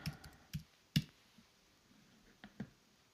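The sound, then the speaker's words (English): Computer keyboard keys clicking as someone types a web search, a few faint, sparse taps spread irregularly over a quiet background. “So actually I should type in Mandela effect so we can get a comparison.”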